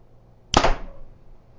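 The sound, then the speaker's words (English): An arrow is shot from a Martin Hellfire Phoenix 35 bow: one sharp, bright snap with a short twang that dies away within a fraction of a second, heard alone against a quiet background. “Now, this is the Martin Hellfire Phoenix 35. So, listen to the sound difference here. Ready? Drawing.”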